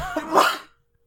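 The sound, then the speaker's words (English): A single stifled sneeze gives one short, muffled, breathy burst that swells and then cuts off abruptly into silence. “Was that a sneeze or what? Yeah. I stifled it the second time.”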